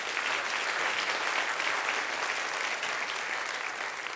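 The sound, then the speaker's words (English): Sustained audience applause at an evening event honoring a translator's work: a dense, even wash of many hands clapping that holds steady from start to finish, with no voices over it. “I urge you all to applaud his achievement right here and right now.”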